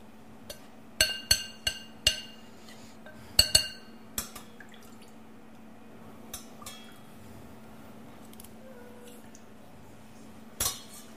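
A utensil clinks against a small bowl while mixing a sugar-and-liquid mass. A quick run of sharp, bright taps comes early on, then quieter sporadic knocks and one last tap near the end, with no talk.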